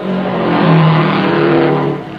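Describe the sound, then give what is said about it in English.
A race car roars loudly on arrival at the Indianapolis Motor Speedway: Lee Wallard's No. 99, winning the 35th Indianapolis 500. The engine makes a dense, sustained drone that swells slightly and eases off near the end. “Mr. Klein is peering up the track. 99. Here he comes, Lee Wallard, the Rex Mays of the Indianapolis Motor Speedway, has taken the 35th 500-mile race,”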